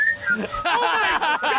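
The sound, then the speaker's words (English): Three animated male characters whistle a short melodic tune with clear, high, wavering tones, overlapped by other vocal sounds. “Also, they're whistling.”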